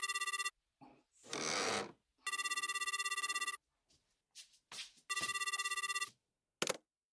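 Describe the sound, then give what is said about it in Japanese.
A telephone bell ringing in three bright, sustained bursts separated by gaps and brief rustling and scraping noises. “電話、ちょっと待っててね。”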